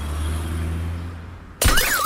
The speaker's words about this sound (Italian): Vediamo se l'iPhone 14 Pro Max cade dalla finestra veloce come il 12.